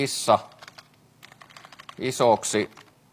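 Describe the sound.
Keys tapped on a computer keyboard in short, irregular runs of light clicks, quiet and uneven, with a voice briefly heard between them.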